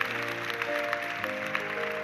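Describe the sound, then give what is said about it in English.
An audience applauds ushers, prayer workers and parking lot attendants at a church service; steady, moderate clapping runs under sustained keyboard-like music tones. “Don't you appreciate these ushers? Give all them a big hand. While you're clapping for them, give all of our prayer workers and parking lot attendants, give all them a big hand.”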